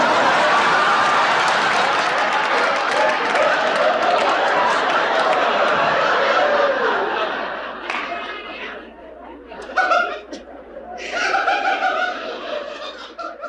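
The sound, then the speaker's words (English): Studio audience erupting at the final line of a comedy scene: a loud, sustained roar of crowd laughter and chatter that slowly fades into scattered individual laughs and short bursts near the end. “I'm literally just going to play basically her final line. And then the audience reacts to it like nothing you've ever seen before.”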